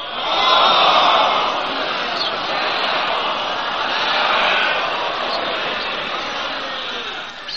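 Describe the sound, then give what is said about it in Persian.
A crowd recites salawat, the collective Islamic blessing, together: a dense, continuous swell of many voices chanting in unison, loud and steady throughout with a slight dip midway. “علی کل حال به صلوات محبت کنید.”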